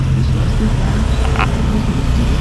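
Heavy road traffic on a congested street, a dense, constant rumble of car and bus engines with roadway noise that stays loud and unbroken throughout.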